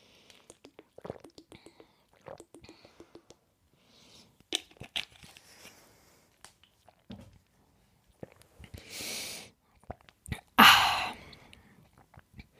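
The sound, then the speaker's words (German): Drinking sounds from someone taking a sip, with soft scattered mouth clicks and two louder brief noisy bursts like a slurp and a swallow, heard alone without talk. “Ich trinke jetzt einen Schluck”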